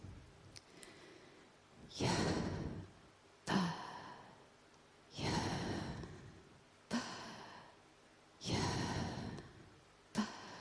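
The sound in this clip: Breathy, unvoiced exhales and inhales sound out the name Yahweh. Three long, soft sighing outbreaths alternate with short, sharp intakes in an even, slow rhythm, with no spoken words.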